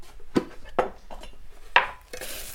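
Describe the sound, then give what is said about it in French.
A teapot is taken out and set down while herbal tea is being prepared, giving a few sharp clinks and knocks of dishware spaced apart, followed by a short rustle. “Donc là on va prendre une théière. Et on va prendre nos plantes.”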